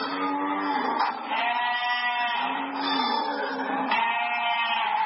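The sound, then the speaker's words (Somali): Sheep and goats bleat at a livestock holding facility in Djibouti, long, wavering calls overlapping one another almost without pause and fairly loud throughout. “marka xoolaha laga soo saaro gegada ambasiyada xoolaha waxaa loo soo gudbiyaa xarunta dabeecadda lagu qalo xoolaha ee ku taalla magaalada Djibouti”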